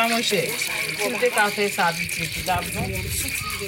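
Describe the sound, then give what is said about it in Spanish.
Water splashes and rattles as a Haitian migrant woman in Tijuana hand-washes her clothes. The irregular sloshing sounds run under a speaking voice. “Lava a mano la ropa que la ha acompañado en un viaje de cuatro meses por 10 países”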